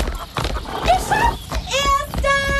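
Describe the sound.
Galloping horses carry riders past a hay wagon in a farmyard race. Rapid, uneven hoofbeats thud beneath loud shouting voices.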